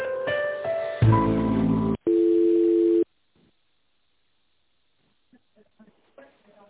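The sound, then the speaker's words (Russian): Ringing tone as a phone call is transferred to a finance department: a harsh buzzy passage, then a steady tone lasting about a second, cut off into near silence with a few faint scattered sounds. “Сейчас это переведу на финансовый отдел, переведу.”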